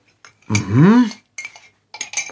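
Cutlery and dishes clink at breakfast in a kitchen: a few short bursts of clattering, chinking metal and crockery, separated by brief gaps.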